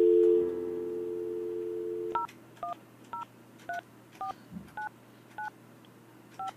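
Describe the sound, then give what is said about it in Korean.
Telephone number being dialed for a live on-air call: a steady dial tone sounds first, then a series of short, evenly spaced touch-tone beeps. “그래서 이 시간에 이분이 전화를 받으실지 모르겠지만 제가 한번 전화 한번 해볼게요.”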